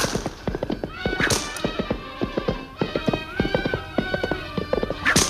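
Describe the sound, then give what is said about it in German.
Muffled hoofbeats of donkeys galloping along the bank of the Nile: a fast, irregular clatter of many soft hoof thuds runs throughout, with a few brief whinny-like animal calls mixed in. “Im gedämpften Eselsgalopp ritten wir am linken Nilufer entlang”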